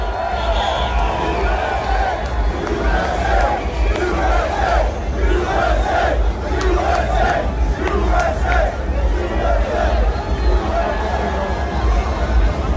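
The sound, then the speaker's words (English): A loud crowd at the Formula One Miami Grand Prix, a dense, unbroken roar of many voices with shouts and rhythmic swells surging above it throughout. “Pretty good. It's a loud audience. It's almost like they're having a rally.”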